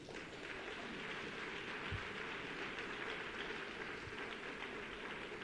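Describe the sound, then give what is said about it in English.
A church audience claps to welcome the preacher's wife. The faint, steady applause forms an even, rain-like hiss of many overlapping claps that keeps the same level from start to finish, with no clear peaks. “You can welcome my wife with a clap offering.”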